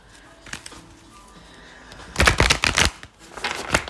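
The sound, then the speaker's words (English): Goddess guidance oracle cards being shuffled: soft riffling at first, then a loud burst of rapid flutters and slaps in the middle, a short lull, and another brief flurry of shuffling at the end. “Okay, let's get a goddess guidance oracle card. Spirit, you've been spitting. Tell me what I need to know.”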